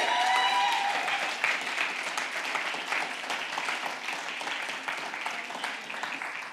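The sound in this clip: A stage audience applauds to welcome a guest, with dense, steady clapping from many hands running throughout and easing slightly toward the end.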